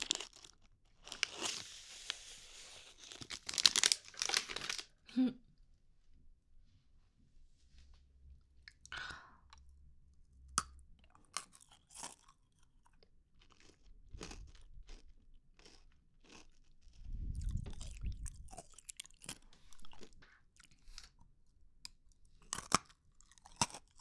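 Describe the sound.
A crunchy snack is being eaten, with many irregular crunching and chewing bites, some louder bursts early on and quieter gaps between them.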